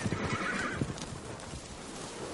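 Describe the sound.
Horse neighing over the thud of hooves as riders on horseback approach; a high whinny rings out in the first second over several hoof beats, then a steady trampling continues.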